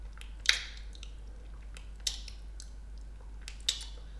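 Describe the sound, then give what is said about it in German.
Wet lip smacks from someone chewing with relish: three faint, sharp smacks spaced evenly apart over a quiet, steady background. “Fangen Sie an, genüsslich zu kauen, ja sogar zu schmatzen.”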